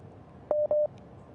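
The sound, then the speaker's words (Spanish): Two short electronic beeps of a video call ringing tone on a phone, each a steady mid-pitched tone with a brief gap between them, standing clearly above a faint background hiss. “Voy a pasarle a ver si nos puede contestar la llamada a través de la cámara.”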